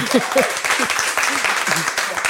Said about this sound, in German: Applaus für Ihr Kommen.